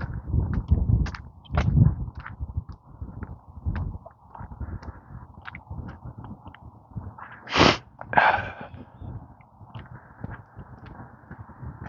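A sharp, loud sneeze bursts out once over low rustling and handling noise, with a brief breathy follow-up just after.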